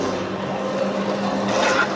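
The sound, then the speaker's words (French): A sticker cutting machine, built only for cutting, runs quickly through adhesive stickers with a steady mechanical whirr and hum that swells slightly toward the end. “On va couper les, le mieux possible les, les autocollants. C'est une machine spécialement étudiée pour faire que de la coupe. Vous voyez, c'est assez rapide.”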